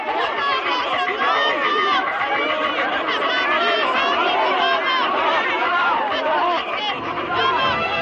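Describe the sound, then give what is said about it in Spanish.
Panicked villagers running through the village in the 1954 film Seven Samurai raise a dense, continuous clamor of many shouting and screaming voices, loud throughout. “Los vecinos corren despavoridos por el pueblo.”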